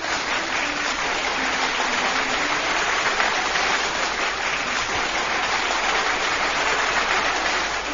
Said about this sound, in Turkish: Kocaman bir alkış gönderelim.